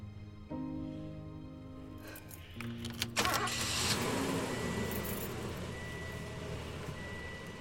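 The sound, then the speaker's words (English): A red SUV starting up and driving off. A steady electronic tone sounds first, followed by a couple of sharp clicks. The engine then catches and settles into a broad, continuous drone that carries on to the end. “Her red SUV travels along the streets until she arrives at the school.”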